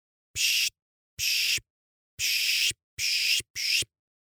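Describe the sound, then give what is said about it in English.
A birder makes pishing sounds in scrubby woodland to draw birds in, mimicking their calls. There are five breathy, hissing bursts, loud and high, spaced at uneven intervals with silence between them. “pishing is a thing birders do to attract birds. You make some sounds that mimic bird calls,”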